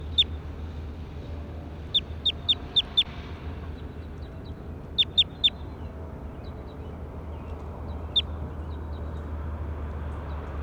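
Bird calls: short, sharp, high chirps over a steady low background hum, with a lone chirp, then a quick run of five, later three close together and one more, plus a few fainter ones.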